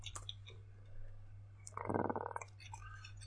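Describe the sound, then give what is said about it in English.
Fingers type on a keyboard close to the microphone, a faint run of quick clicks that bunches into a dense burst midway, over a steady low hum. “It is hard to type on mic.”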